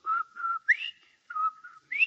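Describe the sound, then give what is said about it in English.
A person whistles a short, bright tune in a few clear phrases, with sustained notes and quick upward slides between them, heard alone. “after Von Zell left here, I saw him out on the porch and he was whistling and singing like this.”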